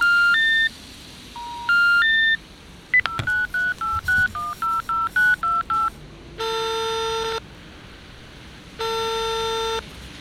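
Telephone dialing into a busy line: a fast run of many electronic keypad beeps at shifting pitches, followed by two long, steady, loud line tones separated by a pause.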